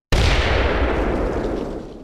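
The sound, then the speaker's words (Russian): Bomb explosion in the corridors of an underground headquarters, the bombs hung on the walls: one loud, sudden boom with a deep rumbling body that decays slowly over about two seconds. “Последовала череда взрывов, после чего по коридорам поползли языки пламени, распространенные теплой волной.”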